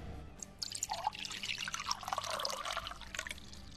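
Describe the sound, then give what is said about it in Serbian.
Water poured into a glass of freshly squeezed lemon juice, a faint, steady trickle with small irregular splashes and bubbling throughout. “E, sad cipaj vodu.”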